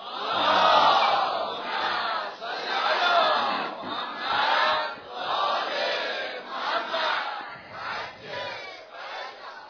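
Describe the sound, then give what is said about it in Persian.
An audience recites salawat aloud in unison, the massed voices rising and falling in a steady rhythmic chant repeated several times. “چون صلوات بلند فرستادن سبب می شود نفاق از میان شما بیرون برود. ازا صلوات که می فرستید با صوت بلند بفرستید.”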